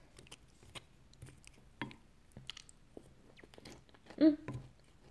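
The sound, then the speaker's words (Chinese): Soft chewing and biting sounds come from a mother and child eating a meal. A few quiet crunches and moist mouth noises are spaced irregularly, with a louder bite near the end. “多吃点，好吃吧？这会儿饭也吃完了”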